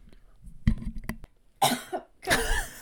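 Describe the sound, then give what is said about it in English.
A person coughs twice, two harsh, loud bursts a fraction of a second apart, after a few faint clicks and taps. “sorry, I had to cough.”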